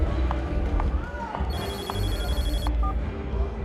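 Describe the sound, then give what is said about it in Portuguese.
An incoming call sets a telephone ringing: an electronic ringtone of rapidly warbling high tones sounds for about a second in the middle, over voices and a steady background bed. “eu preciso atender essa chamada.”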